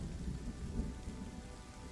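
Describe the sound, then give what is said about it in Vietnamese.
Steady rain pours with low, rolling thunder rumbling underneath, a faint and continuous wash of noise with no voices. “Tiếng mưa vẫn rơi không ngừng. Những trận sấm sét đang điên cuồng giáng xuống.”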